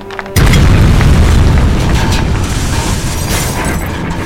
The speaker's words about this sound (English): something just exploded. What's happening? Manga! The gate! Yabrarimashita. The gate of the city has been broken.